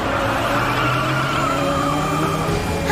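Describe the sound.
Racing car engine during an overtaking battle in a race: a loud, steady, high-revving roar with whining harmonics that holds constant throughout.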